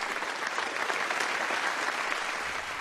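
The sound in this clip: Applause from an audience after a performance, a dense, steady wash of many hands clapping at an even level throughout.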